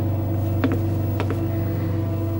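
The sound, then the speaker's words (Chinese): A window being opened gives a few brief clicks and creaks over a steady low mechanical hum, with no voices. “你怎么又把窗户打开了？”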